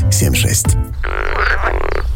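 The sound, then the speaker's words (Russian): Frog croaking, a few loud, raspy, buzzing croaks following one another in quick succession. “О, это лягушка.”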